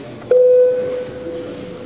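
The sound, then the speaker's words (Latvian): An electronic voting bell sounds in the Latvian parliament chamber during a plenary vote: one steady tone that starts abruptly, stays loud for a moment, then lingers as a softer sustained hum to the end. “Lūdzu zvanu.”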